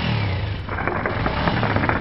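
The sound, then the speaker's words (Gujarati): A motorcycle engine revs loudly while the bike is stopped beside a roadside paan stall, a dense, continuous throaty roar that holds steady for the whole stretch with no break. “પાનના ગલ્લા આગળ રોકાઈ ગયો છે, પણ હંમેશની જેમ motorcycle નું engine હજી પણ એને એટલા જ જોરથી ચલાવ્યું છે”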